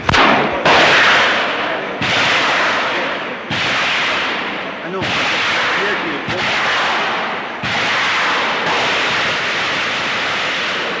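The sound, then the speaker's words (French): Gunfire and explosions of a night battle in a burning forest lit by flares and tracer rounds: a steady series of loud, sharp blasts, each trailing off into a long roaring rumble before the next hits. “Et le combat dure comme ça maintenant, depuis plusieurs heures. Il va durer toute la nuit au hasard.”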